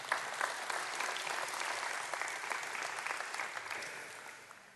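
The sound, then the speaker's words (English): An audience at a church gathering applauds with dense, continuous clapping that holds steady and then gradually tapers off toward the end. “Y'all give her a hand, would you?”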